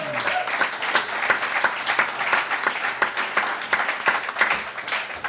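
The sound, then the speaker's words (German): Audience applause at a live comedy stage show, a steady, loud wash of many clapping hands with crisp individual claps standing out throughout. “Applaus.”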